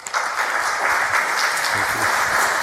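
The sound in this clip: Audience applause welcoming author Thad Carhart to an author talk, starting abruptly and holding as dense, even clapping throughout.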